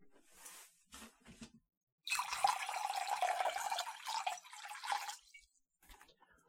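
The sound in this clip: Water is poured during a ritual washing of feet at a Holy Thursday Mass. Faint splashes and drips lead into about three seconds of steady, trickling pouring, then a few soft drips trail off.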